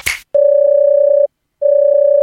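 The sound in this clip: Telephone tone heard while calling a coal-yard firm: a brief rustle, then a steady, loud, mid-pitched tone with a slight pulsing, a short silence, and the same tone again.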